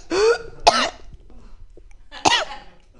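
Someone coughing and sputtering while choking on their own spit during a stand-up set at an open mic: three harsh bursts, two close together, then a pause and a third.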